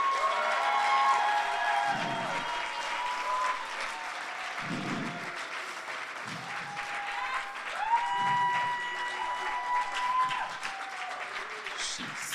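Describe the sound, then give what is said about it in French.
Congregation cheering and applauding during a church service, with sustained clapping, shouting voices and loud, continuous crowd noise. “Est-ce qu'on peut acclamer le roi des rois?”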